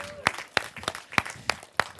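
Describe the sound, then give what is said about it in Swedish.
Hand claps offered as a round of applause, heard as a slow, steady series of separate, sharp claps at an even pace, fairly faint against a quiet background. “Det är värt en applåd ju.”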